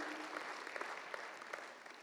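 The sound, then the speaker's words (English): Soft, steady applause from an audience, faint and even throughout. “Another round of applause for all those guys.”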